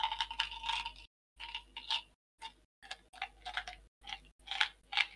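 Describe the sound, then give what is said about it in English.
Rattling of a bottle of chewing gum: a few bright, clattering bursts of small pieces knocking and ticking inside the container, broken by short silent gaps, with no voices. “You better cut this out, because I'm going to keep playing with this bottle of gum.”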